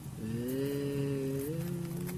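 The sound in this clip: A cow moos at a livestock auction: one long, loud, low call held steady for about two seconds, with a small upward step in pitch near the end. No voices are heard.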